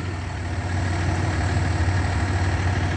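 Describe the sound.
Engine of a towing and recovery tow truck idling across the street from a convenience store: a steady, continuous low rumble with constant vibration and no voices.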